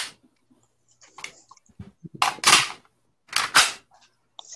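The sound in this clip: Sharp pops of a BB gun firing come in a few quick bursts, separated by faint clicks and quiet gaps.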